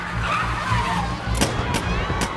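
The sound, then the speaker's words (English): Tyres squeal as a white van skids in traffic, the squeal sliding downward in pitch, followed by three sharp bangs. “A white van skids, blocking the traffic.”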